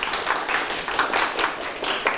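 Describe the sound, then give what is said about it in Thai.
Classmates clapping in a classroom for a student's correct vocabulary answer: a dense, even patter of many hands that holds at a steady, moderate level for about two seconds, with no voices. “ตอบถูกปรบมือให้เพื่อนครับ”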